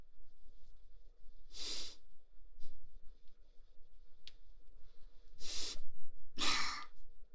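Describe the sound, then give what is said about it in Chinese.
Loud, heavy breathing from someone alone at home: three strong, breathy bursts of air stand out, with fainter breaths in between and no speech. “你喘的能不能小点声啊？我知道你个人在家，可你这喘的也太大声了吧，我听着不好意思。”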